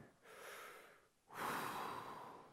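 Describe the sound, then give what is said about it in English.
A big deep breath, heard alone as two long airy drawn sounds, the second louder and fuller than the first. “Big breath.”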